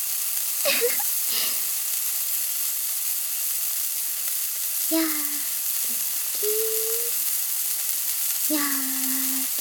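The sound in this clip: Hamburger patties sizzle as they fry in a pan: a steady, bright hiss runs throughout, and a few short sung vocal phrases come and go over it.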